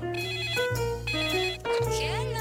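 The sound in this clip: A melodic ringtone plays while an outgoing telephone call connects: loud, steady electronic tones step up and down in pitch without pause, with short dips in level at two points.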